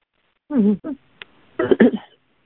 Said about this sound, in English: No, I just cleared my throat.